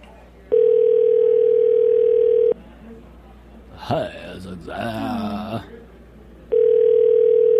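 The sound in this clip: Outgoing telephone call ringing out while waiting for pickup: a steady, low buzzing ringback tone in two long bursts with a pause between them, and voices heard during the gap.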